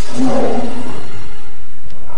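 A tiger nearly the size of a calf lets out one loud, rough, low roar that swells and then fades away over about a second, leaving a faint hiss behind.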